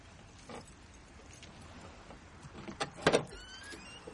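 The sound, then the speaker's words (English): A car trunk is opened: quiet, faint mechanical rustling, then a few sharp latch and motor clicks bunched near the end, the loudest part of the sound. “He walks to the trunk and opens it.”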